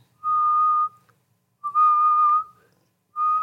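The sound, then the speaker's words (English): Someone whistling a single steady note three times while raising and lowering the head, each clear, sustained whistle lasting roughly half a second to a second, separated by short silences. “I was trying to learn to whistle when I was younger at Grandma's house. And I could kind of only do one note, but I would raise and lower my head. Like I was making different noises. So I'd go...”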